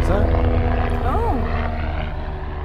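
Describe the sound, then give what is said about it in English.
Helicopter flying overhead, a steady, dense rotor and engine rumble that holds at an even level throughout, with a voice briefly audible over it. “helicopter.”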